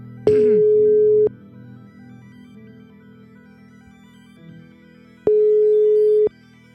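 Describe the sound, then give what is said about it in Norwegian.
Ringback tone of an outgoing telephone call: two steady, mid-pitched electronic beeps, each about a second long and separated by roughly four seconds of faint line hum. “jeg tror jeg skal ringe Torjus og Peter og fortelle dem hva vi har funnet ut.”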